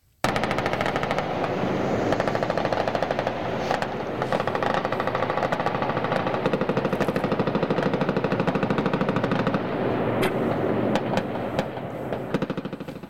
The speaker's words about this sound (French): Donc on voit qu'on est vraiment dans des tirs en rafale. C'est pas interdit? Alors, ça a été interdit pour le fusil d'assaut 90, ce qu'ils appellent le fusil d'assaut 90, mais là, il paraît que c'était normal parce que c'était une mitrailleuse,